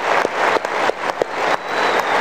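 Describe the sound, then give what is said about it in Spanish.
Applause from a class audience, a steady wash of clapping with a few sharper claps rising out of it, running for the whole short stretch. “Vamos a darle un aplauso allá. Les doy un aplauso a todos.”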